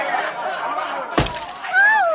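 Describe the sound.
Glass breaking as a bottle is thrown at a pastor's house by a rowdy crowd: one sharp, bright burst of shattering amid ongoing talking voices.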